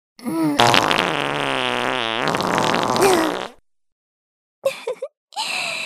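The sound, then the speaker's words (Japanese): A loud, drawn-out fart with a buzzing, wavering tone lasts about three seconds, then falls silent before a few short sputtering bursts follow. “早速出ちゃった。おなら。ほら、ぷーん。”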